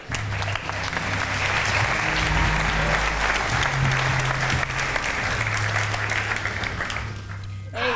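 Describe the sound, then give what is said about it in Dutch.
Applause greets a guest as he is welcomed in, a full, steady clatter of many hands that swells quickly and holds for several seconds over a low sustained tone. Voices are faintly present underneath. “Dames en heren, handjes op elkaar voor Mees Bovenlander.”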